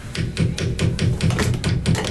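Knocking on an object that does not work, a quick, even series of many sharp taps repeating at a steady rhythm with no voices.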